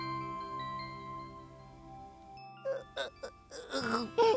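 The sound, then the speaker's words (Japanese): An adult man crying: after a stretch of soft sustained tones, short sobbing bursts break out, then longer, louder wailing sobs toward the end. “なあほら泣くなって。”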